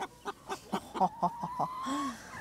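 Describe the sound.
Hens clucking on a farm: a faint series of short, rhythmic clucks, several in quick succession, ending in a longer drawn-out call.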